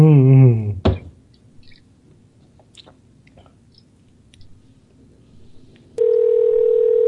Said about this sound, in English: Ringing.